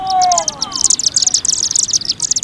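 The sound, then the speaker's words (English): A flock of small dark birds whirls above a chimney at sunset on a September evening. Many rapid, high-pitched chirps and twitters overlap in a dense, continuous chatter. “Scores, perhaps hundreds, of small, dark birds whirling by, then forming a funnel-shaped cloud above the chimney.”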